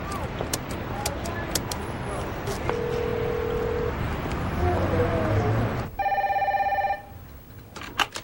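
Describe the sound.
Tones from punching a number into a public telephone on a street, with short beeps sounding over steady traffic noise and a longer stacked tone near the end before things quiet down.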